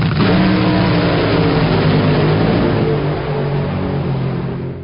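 Drag racing car engine revving hard, a loud, dense, continuous roar at high throughput that holds nearly level for the whole stretch and eases only slightly toward the end, with no voices over it.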